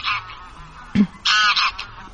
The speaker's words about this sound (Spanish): Por cierto que los ánsares son gansos, los ancestros salvajes de las ocas domésticas de Europa.